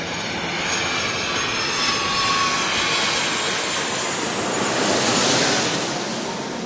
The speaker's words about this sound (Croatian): Prvi let je stigao na aerodromu Sidneju iz Los Angelesa u 6.20